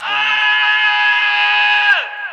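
A high-pitched pop-style vocal scream in a song, held as one long, loud, steady note for about two seconds, then sliding down in pitch at the end. A brief lower vocal sound opens it.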